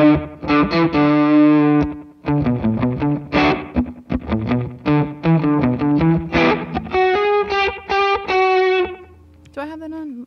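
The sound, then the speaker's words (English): Loud, heavily saturated fuzz distortion from a cranked guitar preamp pedal, played as a busy run of sustained notes and chords with a brief pause early on and a different, thinner tone at the very end. “But this is what the preamp sounds like. This is it cranked and super super fuzzy”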